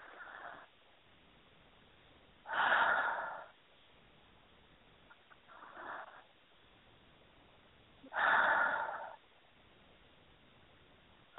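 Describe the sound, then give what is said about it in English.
Deep breathing: three slow, airy breaths separated by quiet pauses. The first and last are fuller and louder, and the middle one is shorter and fainter, all heard alone against a faint background hiss. “And three more nice, deep, deep breaths.”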